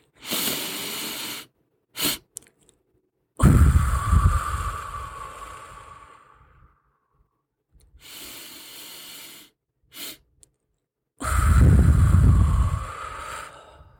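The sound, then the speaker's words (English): Nasal-and-mouth breathing from a breathing exercise for mothers in pelvic health rehab: two cycles, each of two quick sniffing inhales through the nose followed by a long, loud, breathy exhale through the mouth that fades out. “it's a double inhale with a long exhale. So you breathe twice in through your nose and breathe it all out through your mouth. So this is what it sounds like.”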